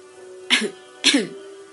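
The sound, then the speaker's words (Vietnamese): Two harsh, explosive coughs from an elderly man in a violent coughing fit, spaced about half a second apart, each a loud broad burst over a faint steady tone. “Lời chưa dứt liền bật ho đến rút ruột vỡ phổi.”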